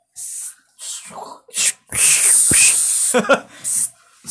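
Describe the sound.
A spray can hisses in several sharp bursts: short puffs, one long sustained spray in the middle, then more quick puffs, all loud and airy.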